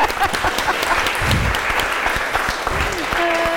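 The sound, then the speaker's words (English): An audience breaks into applause, a dense, steady wash of clapping from many hands that holds at an even level for a few seconds. “so can we just give them a round of applause”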